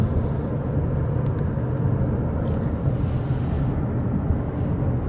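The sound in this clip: A car drives past a house, heard from inside as a steady low engine and road rumble with faint wind noise, even in loudness throughout and with no talk.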